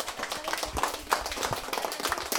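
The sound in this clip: An audience at a school event applauds a teacher, mothers and children, giving dense, steady clapping with many overlapping sharp hand claps at an even level throughout.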